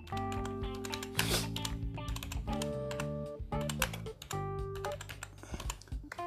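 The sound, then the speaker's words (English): Quick keystrokes on a computer keyboard as a web search is typed, a busy run of light clicking taps over a steady tonal background. “If I was to go to the big bridge search here and I was to type in cyber tech tools,”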